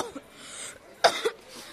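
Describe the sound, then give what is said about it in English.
A person who is sick with a virus coughs and splutters: a faint sound at first, then two sharp, loud coughs in quick succession. “That is why you are coughing and spluttering all over my place.”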